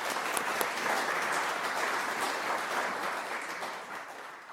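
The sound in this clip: An audience applauds to welcome a speaker at a talk on airships for science. The clapping is dense and steady and eases slightly toward the end.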